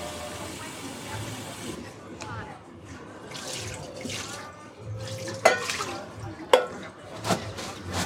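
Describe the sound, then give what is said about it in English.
Tap water runs while hands are washed under it, giving a continuous hissing, splashing flow. A couple of sharper knocks come near the end, and faint voices can be heard in the background. “I'm going to wash. I'm going to wash because we're going to try something. I'm washing.”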